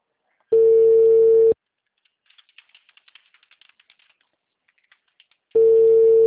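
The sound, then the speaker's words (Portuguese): Ringback tone of an outgoing telephone call: two long, steady, mid-pitched tones separated by a silent pause of about four seconds, with soft keyboard typing clicks in the gap between them. “Aí tá chamando, né?”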